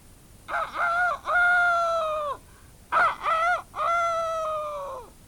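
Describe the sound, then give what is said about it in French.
A young rooster crows twice, each crow a short harmonic note followed by a longer drawn-out one, fairly loud and clear with no voices. “lorsqu'elle entend le jeune coq de la Bastille lancer son cocorico”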